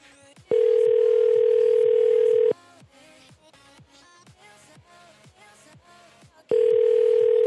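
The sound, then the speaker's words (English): A loud ringback tone on an outgoing telephone call sounds as a steady two-second burst, followed by a long pause with faint low noises, then a second ring that cuts off at the end. “Oh, there it goes. Oh, it's ringing.”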